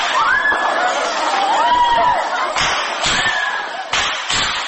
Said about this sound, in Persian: این آن صدای فریادهای دانشجویان است که در جریان حمله به پوهنتون کابل ثبت شده است.